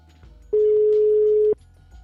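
A single steady ringback tone sounds while an outgoing phone call connects. It lasts about one second, even and unbroken, over a low background hum.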